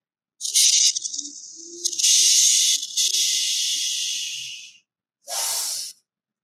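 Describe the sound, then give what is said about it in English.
Forceful breathing out while pulling the abdominals in during an exercise: loud, airy hissing exhalations, a long drawn-out stretch that slowly fades, then a short, separate final burst. “You basically breathe all of it out and pull it in at the same time. So it looks like this.”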